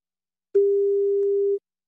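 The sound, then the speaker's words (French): On an outgoing phone call, a single steady telephone ringing tone sounds for about a second at one even pitch, clean and alone between short silences. “Allez, on essaie d'appeler Mireille Dumas pour lui souhaiter un bon anniversaire.”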